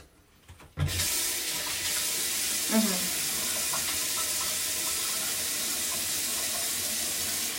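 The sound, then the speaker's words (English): Water running from a tap at a sink while someone washes their face: a steady, soft, hissing stream starts abruptly after a brief quiet moment and flows on evenly. “Washing my face. Check.”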